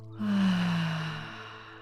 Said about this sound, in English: Breathe in. Let it all go.